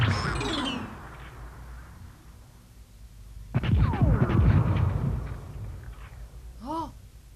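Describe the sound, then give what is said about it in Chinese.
Cannon fire heard underwater in an animated film: after an early rumbling wash, a deep muffled boom rolls on for a couple of seconds with downward-sliding whistling tones, then fades out. “不是啦，水比空气更容易传达声音，那个声音好像是大炮的声音。”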